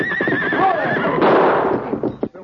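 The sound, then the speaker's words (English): A big stallion neighs with a loud, wavering high whinny as it throws its rider, followed by a burst of rough, noisy scuffling that cuts off abruptly. “Pretty smart, whistling to that horse, making him throw me.”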